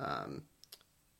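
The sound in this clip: Computer mouse clicking, a few faint, sharp clicks in quick succession just after a short burst of speech.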